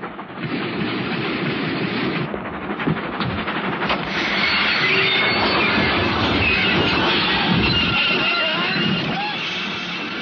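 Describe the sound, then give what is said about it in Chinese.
A train rumbles and clatters loudly across a bridge in open country as its emergency brake is pulled, a dense steady roar with thin high squealing tones emerging in the latter half. “列车驶进野外的一座大桥，汉内拉动了车上的紧急制动闸。”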